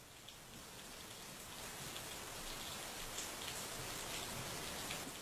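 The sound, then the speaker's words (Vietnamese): Heavy rain pours down in a dense, continuous hiss of drops, fairly faint and rising slightly in level as it goes on, with no voices. “trời tự nhiên đổ mưa to, mưa dữ tợn lắm.”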